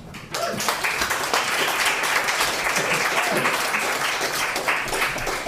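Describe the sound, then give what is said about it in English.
Applause from an audience at a reading night as one first-time reader leaves and another is called up, the clapping bursting in abruptly and then holding steady and full to the end. “And as we give Abby another hand, let's bring up another first-time reader here.”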